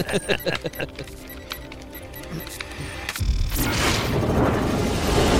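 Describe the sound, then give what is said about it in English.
Racks of guns rush in as an action-film sound effect. A rapid run of metallic clacks and clinks gives way to a loud, broad rushing roar that swells to the end. “These are all the guns rushing in.”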